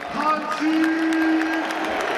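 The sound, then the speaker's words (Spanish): A stadium crowd at the Camp Nou football ground gives a loud, sustained ovation of applause and cheering, a dense, even roar with a long whistle-like tone sounding through it. “Ovación extraordinaria.”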